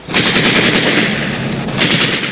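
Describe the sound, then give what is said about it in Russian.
Loud, sustained rapid gunfire in a wartime film scene, shooting at German soldiers crossing a ford, with a dense, continuous crackling burst that surges again near the end. “стреляет в них.”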